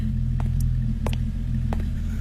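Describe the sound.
A car engine left running idles with a steady, low, throbbing rumble, broken by a few faint clicks.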